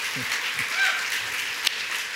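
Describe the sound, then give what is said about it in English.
Steady applause from an audience rising to its feet to welcome a pastor, a dense, continuous patter of clapping that holds at an even level throughout with a sharp clap standing out near the end. “Can we stand to our feet and welcome Pastor Dave Barr? Come on, give him a hand.”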